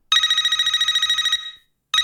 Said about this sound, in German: Und da hat so ein Telefonsequenz-Intro.